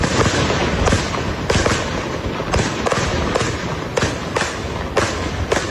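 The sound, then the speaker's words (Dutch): Fireworks set off at night outside a hotel by football supporters: many loud, sharp bangs at irregular intervals over continuous crackling and rumbling. “Een flinke vuurwerkshow is daar afgestoken.”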